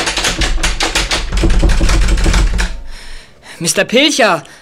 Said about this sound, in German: Hey, wer schließt denn da ab?